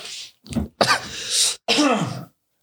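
Throat clearing by a person with something caught in their throat: three harsh, raspy bursts in quick succession, the middle one longest.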